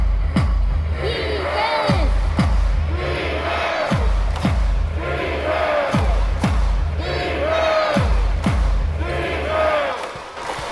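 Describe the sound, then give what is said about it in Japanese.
A crowd rehearses the defense cheer for the Volters team, chanting in a steady repeating pattern about five times over loud thumping drum beats. “守ってる時、うん、守備をしているディフェンスの時の応援の音を聞いてください。”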